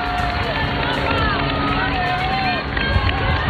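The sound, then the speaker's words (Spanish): A live street crowd in Madrid as the pope passes in the popemobile makes a continuous, loud roar of many voices, with a few high, sliding whistle-like tones rising above the dense babble. “Esto que están escuchando ahora mismo es señal en directo. En este momento León XIV está dando un paseo por las calles de Madrid en Papamóvil.”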